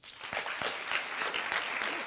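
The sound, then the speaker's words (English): An audience applauds: many hands clap in a steady, fairly faint crackle that runs without a break for about two seconds. “How many of you applaud now if you occasionally wear orange?”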